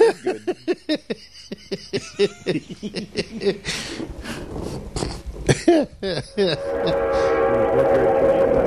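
A train passes, its noise building into a steady, loud roar through the second half with a sustained horn-like tone on top, while people chatter and laugh in short bursts during the earlier part.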